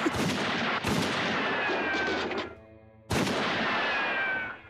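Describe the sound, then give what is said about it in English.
Three loud gunshots crack out, the first two close together and the third after a pause, each with a long rolling decay. “Sorry, I just had to let off a few shots there.”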